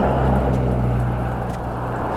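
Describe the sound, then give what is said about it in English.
Heavy road traffic produces a steady low rumble and engine drone. It holds fairly constant throughout, with no distinct single vehicle passes standing out. “There's just so much traffic, too.”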